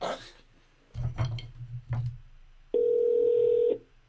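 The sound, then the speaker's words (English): A telephone call being placed: a few short bursts and clicks over a low hum, then a single steady, loud electronic tone held for about a second before cutting off. “All right, let me call Ed Carr right now because I kept him waiting a little bit.”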